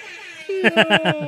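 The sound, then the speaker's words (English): An air horn sound effect fired from a soundboard, a quick run of short, bright blasts with strong harmonics following a brief steady tone. “is our big air horn bonus item sound.”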